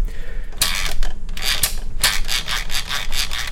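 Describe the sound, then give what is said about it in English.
Rubbing and scraping from an Anko stand mixer from Kmart as it is handled and taken apart, a series of dry, rasping bursts over a steady low background, with no voices. “This is the Anko mixer, so the Kmart one.”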